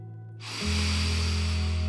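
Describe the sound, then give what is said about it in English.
A deep breath in: a long, steady, airy hiss swells and then holds loud above a low sustained droning tone. “Breathe that in.”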